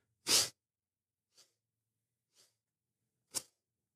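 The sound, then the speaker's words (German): Four sharp, forceful breaths from a fast rhythmic breathing exercise done with arm movements, about a second apart. The first and last are loud, puffy bursts and the middle two are faint, with silence between them and no talk. “Und dann atmest du wieder ein ziehst die Arme wieder hoch und. Mhm. Und das machst du jetzt ein bisschen schneller, also in einem höheren Tempo, dass das ungefähr so ist.”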